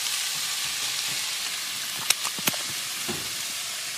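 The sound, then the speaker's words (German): About two tablespoons of curry paste sizzle in a pan on the stove with a steady frying hiss. A few brief clicks and clatters cut in partway through. “So. Auf den Herd damit. Und jetzt kommt auch schon die Currypaste. Dann nimmt man so, ich sag mal, 2 Esslöffel.”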